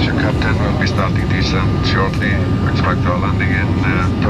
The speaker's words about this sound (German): Also, anschnallen, wir setzen an zur Landung, na klar, in Island.